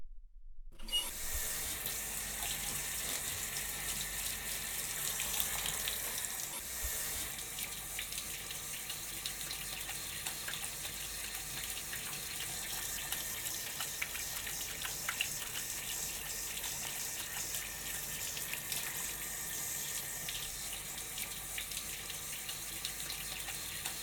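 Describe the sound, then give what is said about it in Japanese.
Water runs steadily from a tap as a mother rinses shampoo from a child's hair, a continuous even gushing that lasts the whole time with no voices. “それじゃあこのまま頭を洗い流していくから、まだお目目閉じててね。”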